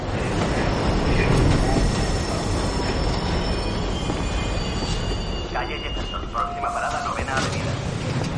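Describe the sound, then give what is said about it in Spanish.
A subway train car rides along the tracks with a loud, continuous rolling rumble, while thin metallic wheel squeals ring out above it throughout. “Va sentado en un vagón de metro mirando al exterior por la ventanilla.”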